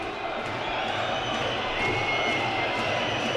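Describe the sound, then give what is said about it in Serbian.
Red Star Belgrade supporters chant in a sports hall during a match against Vojvodina. The crowd noise is a dense, steady roar that holds at an even loudness throughout, with no clear rhythm standing out. “Ustanite Delije, oglasili su se navijači Crvene zvezde, podržavaju svoje i to je lepo, na lep način to čine sada.”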